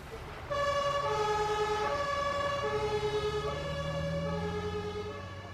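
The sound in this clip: An ambulance siren wails in a loud, steady alternating two-tone pattern that repeats without pause, with a low vehicle rumble beneath it.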